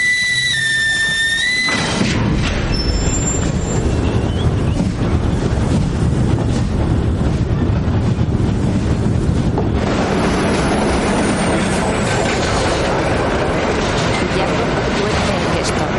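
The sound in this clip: A deportation train pulls into a station in a World War II drama, with a continuous heavy rolling rumble and wind noise that stays loud and even throughout.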